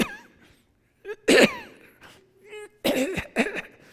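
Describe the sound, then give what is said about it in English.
Rough throat-clearing coughs from a tickle in the throat come in a few short, harsh bursts, with a brief quiet gap between the first burst and the later ones. “I did that demonstration for you like you didn't all know what I was talking about before I did it.”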